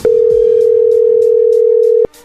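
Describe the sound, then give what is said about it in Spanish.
Ringback of an outgoing video call: one loud, steady mid-pitched tone holds for about two seconds, then cuts off abruptly. A quieter hum remains. “Le acabo de hacer este videollamada ahorita. A ver, ahí entró la llamada.”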